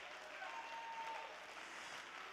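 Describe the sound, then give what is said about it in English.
A church audience claps hands together in a steady, continuous patter of applause, faint throughout. “Clap your hands to the name of the Lord.”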